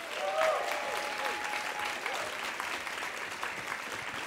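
An audience at a Portland comedy show applauds to welcome a guest with busy, continuous clapping that swells briefly near the start and then carries on at an even level.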